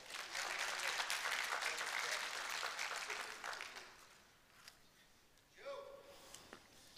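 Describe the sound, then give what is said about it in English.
Audience applause for a volunteer fills the first few seconds as a dense, steady patter of clapping, then fades away before a voice begins speaking. “All right. Let's give him a hand.”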